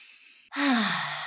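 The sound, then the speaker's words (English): A deep breath drawn in during a guided breathing exercise, a loud, airy inhale lasting under a second with a slight voiced, falling hum, preceded by a softer steady hiss. “And a deep breath in”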